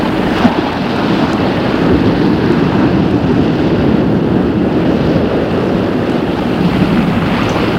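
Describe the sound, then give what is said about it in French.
Turbulent lake water churning at night, a steady, dense rushing roar that holds at an even loudness throughout with no pauses or distinct splashes. “Il est au bord du lac. Il fait nuit. L'eau du lac est tumultueuse.”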